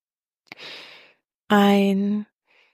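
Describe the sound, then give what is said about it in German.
A guided breathing exercise: one soft breath drawn in, then after a pause a longer, louder exhale through the mouth that becomes a voiced, sigh-like breath before fading. “Ein und durch den Mund ausatmen.”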